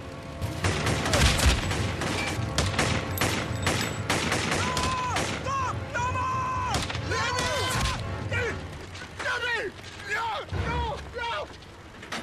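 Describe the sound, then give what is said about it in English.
Gunfire in a film scene: many sharp shots in rapid volleys mixed with other loud effects, while people talk. “his brother is shot, during that clip he was shot”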